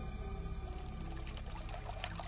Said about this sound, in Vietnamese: liền bước lên phía trước, vốc nước rửa mặt